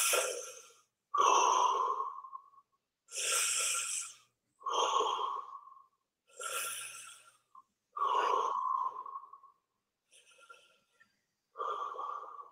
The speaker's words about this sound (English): And you're going to expand, breathe in such a way that your belly pushes out. So you're really going to expand the diaphragm.